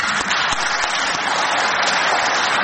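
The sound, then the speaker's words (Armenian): Members of parliament applauding in a parliamentary session: dense, even clapping from many hands, steady throughout, with no talk. “Հայաստան Դաշինքի երկու բացակա պատգամավորների անունները հնչելից խմբակցության պատգամավորները ոտքի կանգնեցին ու ծափահարեցին։”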